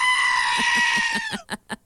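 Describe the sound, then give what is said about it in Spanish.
A goat gives one long, loud, high bleat held for over a second, then a few short, sharp bursts of sound follow. “Yo tengo una chiva loca justo aquí. Miren, espérenme, déjenme la busco. Chiva loca, aquí está.”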